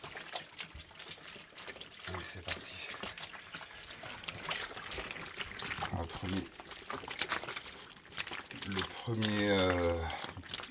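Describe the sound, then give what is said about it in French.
Water trickles and sloshes as sourdough starter (levain) is mixed into water until smooth, a busy, uneven liquid churning with a voice heard briefly near the end. “Ouais, le premier truc, c'est de mélanger le levain à l'eau. D'avoir quelque chose d'homogène, en fait.”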